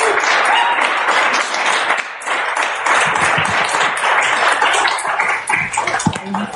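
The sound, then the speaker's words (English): Steady church audience applause welcoming a speaker at a morning service, a dense, continuous patter of many hands that holds at an even level for several seconds. “And so if you would, just give her a warm welcome this morning. Praise the Lord.”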